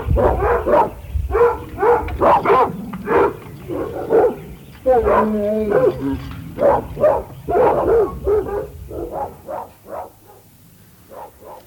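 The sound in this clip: Dogs bark in a zoological garden with many quick barks and yips in uneven bursts. A drawn-out whining note sounds midway, and the barking grows quieter toward the end.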